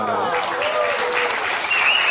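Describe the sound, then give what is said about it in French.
Studio audience applause on a French TV talk show: dense, steady clapping from many hands that stays loud and even from start to finish. “les applaudissements vont à une paire de fesses.”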